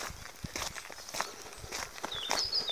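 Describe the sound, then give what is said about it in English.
Footsteps crunch on gravel in a steady walking rhythm, with many gritty scuffs of moderate loudness running through the whole stretch. “So all you can hear now is the crunching of my feet on the gravel”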